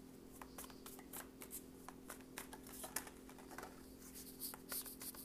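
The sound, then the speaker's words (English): Tarot reading cards are shuffled and drawn, making faint papery riffles and many soft flicks and taps in an irregular rhythm over a low, steady hum. “Okay, we got four out right now. Let's get two more cards, please.”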